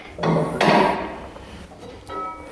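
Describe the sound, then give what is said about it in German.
A trainer opens a large window in a bright weight room, making a broad rattling scrape and thump that fades into quiet, then a lighter knock near the end. “Der Trainer öffnet das große Fenster, damit ein bisschen Sauerstoff hereinkommt.”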